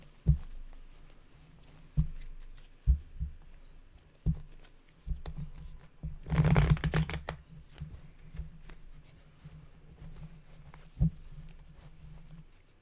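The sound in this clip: A deck of cards being shuffled: scattered soft taps and handling knocks, then one brief, dense riffle burst midway. Quieter taps and light shuffling follow. The sounds are faint and heard alone.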